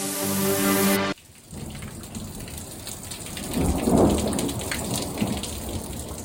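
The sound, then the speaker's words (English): Torrential rain and thunder during an afternoon storm in Phoenix, Arizona: a dense, steady hiss of pouring rain, with a loud rolling rumble of thunder that builds and then eases off. “That's the sound of torrential rain and thunder in Phoenix, Arizona yesterday afternoon.”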